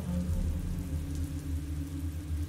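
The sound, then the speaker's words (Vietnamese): Rain and wind, as an audio drama effect, sweep against an oil lamp in a room at night. A soft, steady hiss of rainfall sits over a low rumbling hum, continuous and fairly faint. “Mưa gió thổi hắt vào ngọn đèn cậy trong căn phòng tắt ngúm đi.”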